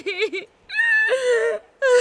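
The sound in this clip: A woman sobbing into someone's shoulder during a comforting embrace: a few wavering, high-pitched voiced sobs and whimpers, separated by short breathless pauses.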